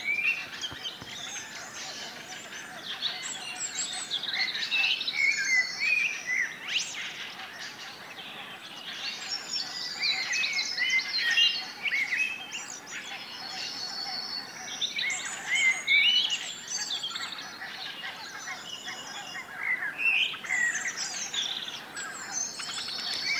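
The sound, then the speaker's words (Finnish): A common blackbird sings on a spring morning at a lake, pausing between varied fluting phrases. A soft, continuous insect or cricket chirring runs underneath, with faint other birdsong. “On toi mustarastos. Upea ääninen lintu. Se on kyllä kevään hienoimpia laulajia.”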